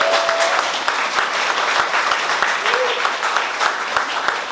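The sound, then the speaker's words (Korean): An audience claps on request at a signing event, a dense, steady crackle of many hands that holds at an even, loud level throughout. “자, 박수 부탁드립니다.”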